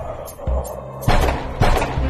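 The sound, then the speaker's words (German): Gunfire aimed at a monster in a hotel lounge during an audio drama: a few heavy, booming shots in quick succession, the later ones sharper and louder than the first dull thump. “Feuer, schießen Sie!”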